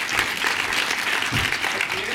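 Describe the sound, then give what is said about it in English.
Applause from an audience welcoming composer Lorne Balfe, a full, steady wash of many hands clapping that holds at an even level throughout. “Ladies and gentlemen, please put your hands together and I'm thrilled to welcome Lorne Balfe.”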